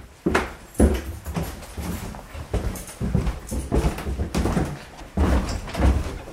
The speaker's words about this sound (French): Alors, on ouvre une porte qui descend un escalier.